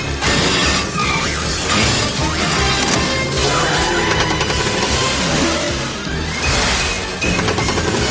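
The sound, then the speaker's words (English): A bowling ball crashes into a car's gear shift: heavy smashing and thudding impacts amid a dense, loud wash of noise that fills the whole stretch. “bowling ball collides with his gear shift.”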